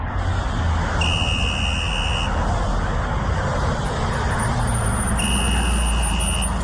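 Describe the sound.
A car gives off a steady low rumble of engine and road noise. Twice, a long, high electronic warning beep sounds above it, each lasting more than a second. No one talks.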